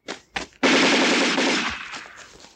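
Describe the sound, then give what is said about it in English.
Machine gun fire: two short bursts, then a long rapid-fire burst of loud, harsh cracks that holds for about a second before tailing off. “Guns.”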